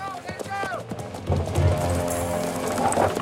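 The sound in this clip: Hoofbeats of horses as riders approach an old man watching machinery at a mine entrance: rhythmic clip-clop that grows louder and denser partway through, with a voice talking over it.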